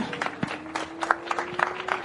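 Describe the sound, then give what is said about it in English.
Scattered, sparse clapping from the crowd at a motorsport podium ceremony for the junior race winner. The claps are light and irregular, with a steady faint tone running underneath. “And for our junior winner out here today, another round of applause for Maxim Direksh.”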